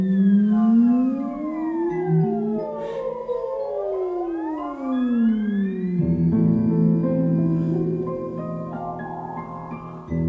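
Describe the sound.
Two theremin tones glide past each other as an effect, one sweeping upward while the other slides down, crossing midway. Sustained, harmonically rich tones and denser pitched layers follow, with no voices.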